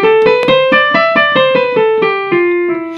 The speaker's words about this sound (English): So anyway, a traditional Phrygian mode sounds like this.